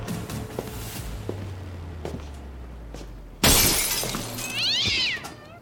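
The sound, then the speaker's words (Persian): A cat meowing: a sudden loud crash like something breaking, followed by one drawn-out, high-pitched meow. Before the crash there is only quiet background hum and a few faint ticks. “آه لعنتی گربه است”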